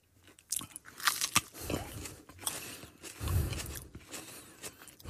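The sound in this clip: Biting into the tip of a hot chili pepper gives a few crisp, crunchy bites followed by soft chewing. The sounds are fairly quiet and uneven, with no talking.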